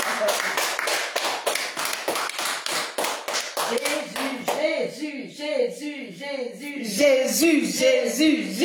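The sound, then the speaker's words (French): Rhythmic clapping from a church audience, a steady beat of many sharp claps in time, with voices singing or chanting over the clapping in the second half. “Est-ce qu'on peut acclamer Jésus?”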